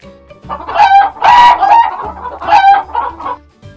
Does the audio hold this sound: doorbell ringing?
no